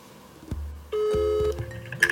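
Telephone dialling beeps for a call to the Netherlands: a few short tones and one longer steady tone, clear and alone.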